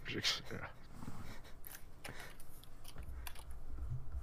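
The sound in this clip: Typing on a computer keyboard during an online game session. A few faint, irregular keystroke clicks are scattered over a quiet background.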